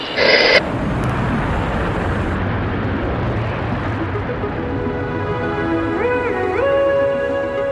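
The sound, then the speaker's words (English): The Virgin Galactic space plane's engine roars as it climbs toward the edge of space: a dense, loud, continuous rumble that holds steady, with a short high tone at the start and faint wavering tones near the end. “We thought we'd start today with a jet engine. That was the noise of the Virgin Galactic space plane heading up to the edge of space”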